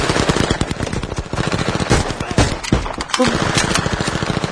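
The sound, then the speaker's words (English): Rapid automatic weapon gunfire rattles out in dense, continuous bursts of many shots, loud and sharp, with barely a pause between rounds across the whole stretch. “Fucking automatic weapons. These are guns that are technically illegal.”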